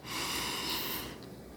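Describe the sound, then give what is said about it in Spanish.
A person inhales deeply during a guided breathing exercise with eyes closed: one soft, steady breath in of about a second that then fades, faint and alone. “cerremos los ojos y respiremos. Inhala.”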